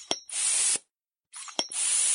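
A balloon inflated quickly with a pump: two strokes, each a sharp click followed by a loud rushing hiss of air, separated by a short silence.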